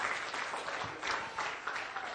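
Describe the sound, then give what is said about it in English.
Congregation applauding in church during an evening service, a steady burst of many hands clapping at moderate loudness, with no talk over it. “Give him a hand of praise here tonight.”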